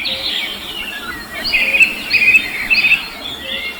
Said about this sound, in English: Do you ever sit in the park and watch the birds? Or walk in nature listening to the birds singing?